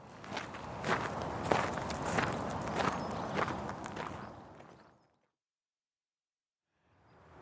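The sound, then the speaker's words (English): Footsteps crunch steadily while walking among the graves of the cemetery at Cambridge, an even stride lasting about five seconds before silence, then sound resumes briefly at the end. “Let's go and have a look then and walk among the graves and see what we can see.”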